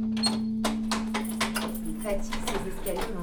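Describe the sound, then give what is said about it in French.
A key turns in a stiff door lock: a quick series of sharp metallic clicks, scrapes and rattles, bunched together with brief pauses between them. “Elle est dure ta serrure là, non? Hein? Elle est dure ta serrure.”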